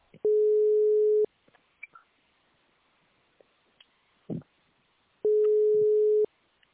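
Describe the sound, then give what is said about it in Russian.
Telephone ringback tone while a call placed from a website connects: two steady, mid-pitched tones of about one second each, separated by a long pause with faint clicks. “Звонок с сайта Геополимер. Ожидайте соединения.”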